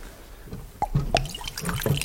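Wine is poured from a carafe into a cup, with wet splashing and dripping in irregular gurgles and spatters.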